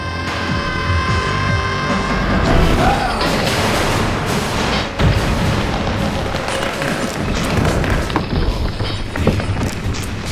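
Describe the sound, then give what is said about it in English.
An explosion sound effect in an audio drama, set at a basement level at the point of detonation. A loud, dense roar and rumble carries heavy thuds and crashing debris, with a sharp crack near the middle. “Basement level. Point of detonation. 1 second after detonation.”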